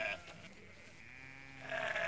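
Sheep bleating faintly: a short bleat at the start, then a longer, louder one at the end, with quiet low background noise between.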